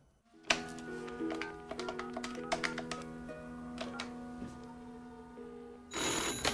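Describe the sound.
Telephone ringing after a number is dialled, tonal ringing mixed with a rapid run of small clicks and taps, fairly faint and continuous for several seconds.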